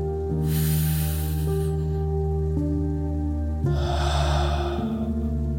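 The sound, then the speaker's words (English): Slow guided breathing over a steady, sustained musical drone: one long airy breath drawn in, a pause, then a broader breath let out, both soft and unhurried beneath the held tones. “breathe in with me. Breathe out. And again.”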